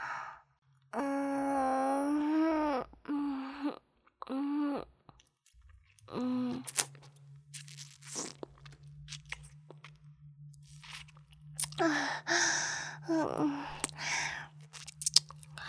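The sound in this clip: Wet chewing and eating of something salty and sticky, with soft intermittent mouth noises and breathy vocal sounds over a low steady hum, and a denser burst of crunchy, smacking chewing near the end.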